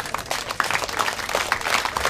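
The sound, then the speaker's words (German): Applause from a group during a German conversation about the supermarket chain Rewe: a dense, steady patter of many hand claps that holds at an even level for the whole stretch. “Okay, der Applaus geht an Rewe, der geht nicht an uns.”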